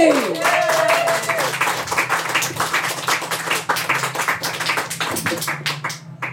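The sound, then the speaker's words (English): Audience applause for a poet about to perform, steady, dense clapping that carries on for about six seconds, with a brief tone at the start. “And put your hands together, everybody, for Louise Fazakerley!”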